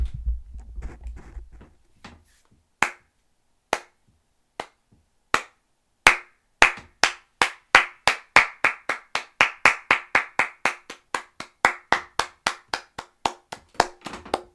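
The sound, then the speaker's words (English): Hands clapping on a stand-up comedy stage: a few slow, sharp claps that gradually quicken into a long, rapid, steady run of crisp, loud claps, preceded by a brief murmur. “No, ladies and gentlemen, that was not the sound of my cheeks clapping. That was the sound of my hands clapping.”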